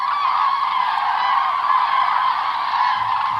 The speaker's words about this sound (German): Mit lautem Trompeten machen sie auf sich aufmerksam, wenn sie in Keilform über Luxemburg ziehen. Die Kraniche gehören zu den ersten Zugvögeln, die Europa von Süden nach Norden überqueren.